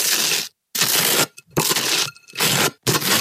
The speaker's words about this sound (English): Yeah, it's spreading butter on toast.